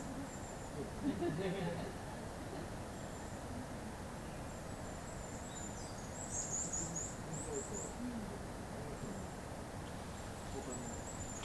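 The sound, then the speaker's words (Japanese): A varied tit calls insistently near a nest box: a quick run of thin, high-pitched repeated notes rises above a steady background hiss, with a few other faint high calls scattered around it. “チーチーチーチーと強めに鳴いたのは山柄です。巣箱のそばに多分両親が来てますね。”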